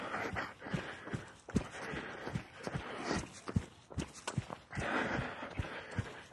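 Footsteps of a person running outdoors early in the morning near a church: steady, rhythmic footfalls with many sharp impacts, alone over a constant background noise.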